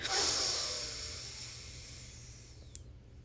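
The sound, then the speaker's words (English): Slow breathing in through the left nostril: a soft, airy hiss that starts strongest and gradually fades over about three seconds, quiet and alone. “Now breathe in through your left nostril.”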